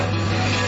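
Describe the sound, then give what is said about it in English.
Rasping wood as a cricket bat is shaped, a steady, continuous filing and rubbing scrape with a gritty, even texture and no pauses, heard alone. “That's the sound of a cricket bat being shaped.”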